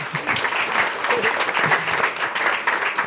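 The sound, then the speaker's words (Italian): Applause from an audience after a talk on power and resistance, a dense, steady clatter of many hands clapping at an even level throughout, with no voices standing out. “Ci sarebbe un applauso a questo punto”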